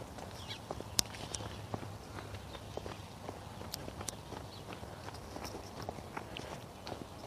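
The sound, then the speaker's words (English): Faint, quick footsteps of people running past on a city block, many soft, irregular steps patter over low background noise. “More runners.”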